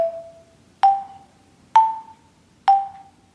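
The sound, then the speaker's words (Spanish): Four separate notes struck on a xylophone with wooden bars, each a hollow, bright knock with a short decay and a clear gap before the next, played alone. “Y este otro que veis aquí es un xilófono. Sus láminas son de madera y suena así de bien.”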